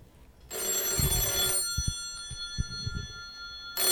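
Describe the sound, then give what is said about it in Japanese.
A Showa-era rotary dial telephone, still in everyday use, rings with a loud, bright metallic bell burst lasting about a second. Low thumps follow during a pause, then a second ring begins just as the sound cuts off. “ダイヤル式の電話かかってくるとこんな音なんですね。”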